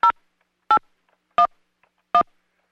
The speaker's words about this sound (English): Please enter your passcode, then press pound.